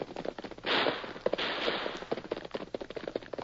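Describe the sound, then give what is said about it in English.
Gunfire in a gunfight: many sharp, irregular cracks fire in quick succession over a rushing noisy background, fairly faint, with no steady rhythm. “what's all the shooting for?”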